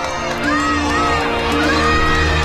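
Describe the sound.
Children play and shout outside a window. A continuous, busy mix of high young voices, cries and calls blends together with no pauses.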